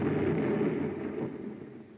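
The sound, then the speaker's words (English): A pipe carrying hot gas into vats bursts at a blown valve, giving a loud, dense roaring rush that holds steady and then slowly fades toward the end. “What was that? One of the pipes has exploded. Blew a valve, probably.”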